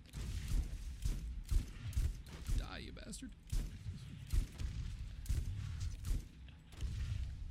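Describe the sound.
Gunfire from shooting an enemy in the Borderlands video game, with many rapid, sharp shots in bursts throughout. Voices are also present.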